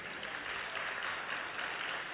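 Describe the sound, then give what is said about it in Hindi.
Faint, steady applause from an audience at an event, welcoming a doctor ahead of a yoga session; a dense, even patter of clapping with no breaks and no rise or fall. “तो बहन doctor विजेता आर्या जी के लिए एक बार जोरदार तालियां।”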